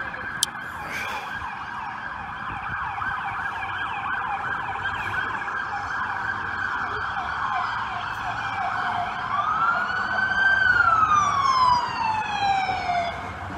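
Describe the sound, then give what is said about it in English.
Sirens of emergency vehicles racing toward the Capitol wail continuously over a rumble of road traffic. Near the end, one siren grows louder and then sweeps down in pitch as it passes. “So it's got to be well over 20 emergency vehicles now have shot past us on the way to the Capitol.”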